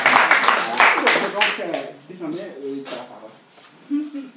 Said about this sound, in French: Est-ce que nous pouvons acclamer très fort le Seigneur, sa part. Gloire à Dieu.